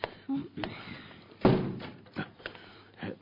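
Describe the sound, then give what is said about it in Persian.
A door is pushed shut with one heavy thud near the middle, surrounded by a few lighter knocks and taps. “اون درو ببند.”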